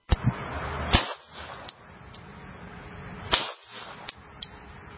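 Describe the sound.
Shots from a Glock pistol: several sharp cracks spaced irregularly over a few seconds, each snapping on hard and dying away quickly, with no talk over them.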